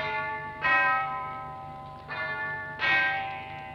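Church bell striking the hour with three resonant strikes, each followed by a long, shimmering hum that decays slowly. The second strike is softer than the other two.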